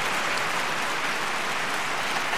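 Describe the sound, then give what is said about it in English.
Dense applause forms a uniform, hiss-like wash of many overlapping claps, steady in level throughout, with no single claps standing out. “That's applause. Well, that's applause. Yeah. I just thought it was distortion. That's applause.”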